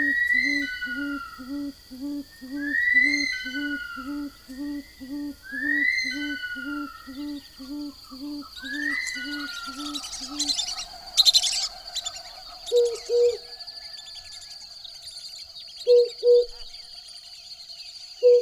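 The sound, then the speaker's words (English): A dawn chorus of birds, part of a compilation of dawn recordings from around the globe. Steady, regularly repeated low owl hoots run under higher chirps and whistled calls, then give way to sparser, scattered calls. “The sounds of dawn around the globe float through Gordon Hempton's head. He produced this compilation in 1990.”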